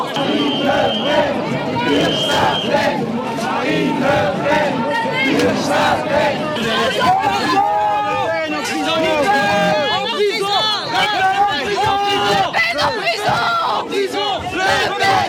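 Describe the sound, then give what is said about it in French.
A crowd boos Marine Le Pen and chants a repeated slogan during a campaign launch visit, a loud, rhythmic massed chant of many voices that continues steadily throughout. “On va la regarder, cette séquence Marine Le Pen huée effectivement lors de ce déplacement, ce lancement de campagne.”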